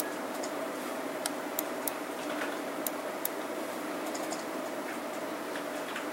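Computer mouse clicks as someone steps through file records: a few sharp, faint ticks spaced irregularly over a steady low background hum, with no voices.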